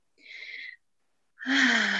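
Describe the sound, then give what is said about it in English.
A deep breath taken mid-conversation: a soft, airy intake, a brief pause, then a longer and louder breathy exhale with a slight voiced edge. “I had to take a deep breath”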